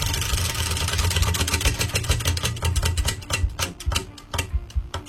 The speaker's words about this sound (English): We'll have a different category, and we'll spin the wheel now to find out just what that category will be.